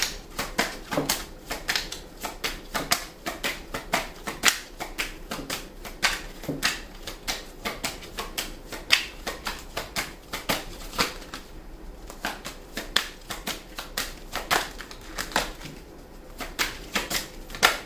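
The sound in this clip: Tarot cards being shuffled, a dense, continuous run of crisp flicks and soft slaps that goes on steadily throughout, fairly faint and without speech.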